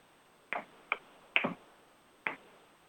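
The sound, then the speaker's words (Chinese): Four crisp finger snaps with uneven spacing ring out alone against quiet, used as one layer of a body-percussion rhythm; the third snap sounds slightly doubled. “然后打响指”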